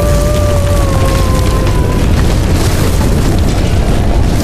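A nuclear missile explosion, heard as a loud, sustained roaring rumble with dense crackle throughout. A thin, slightly falling whistle sounds over it for the first two seconds.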